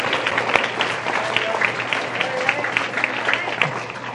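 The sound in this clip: Audience applause at a community gathering: a dense, steady clatter of many hands clapping, fairly loud, with some voices mixed into the crowd noise.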